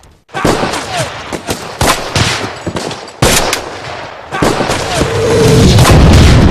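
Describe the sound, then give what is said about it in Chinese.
Bombs dropped from aircraft explode across a battlefield in a loud, rapid string of heavy blasts and cracks, blending toward the end into a continuous rumbling roar. “恼羞成怒的敌人出动了飞机，接连不断地向一连阵地扔了炸弹，炸得阵地硝烟蔽日，沙石树枝乱飞”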